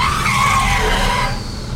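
Tire squeal from a car braking to a complete halt, a loud, continuous screech that holds for over a second, then thins out and fades as the car stops.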